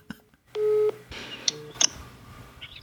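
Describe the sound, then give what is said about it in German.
Telephone dialing tones as a call is placed: one steady tone held for about a third of a second, then a few short, high beeps. “Und deshalb habe ich einfach jetzt aus jedem DDR-Bundesland jemanden angerufen und gefragt”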